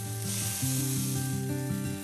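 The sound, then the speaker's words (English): Lamb sizzling in a little oil on a barbecue grill, a steady, bright hiss and crackle that runs throughout alongside low tonal music. “So they're starting to get really, really nice, and we want that golden sizzle happening.”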